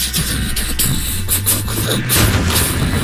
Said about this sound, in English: The Cat Rocket Ship woke up with a start, its engine sputtering on